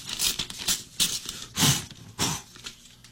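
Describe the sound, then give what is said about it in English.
An envelope is opened with several sharp, papery rustling and tearing bursts, quiet and uneven in rhythm. “The time I get to open the envelope and see who the special guest is on Backstage Country. Brian leaves me this envelope.”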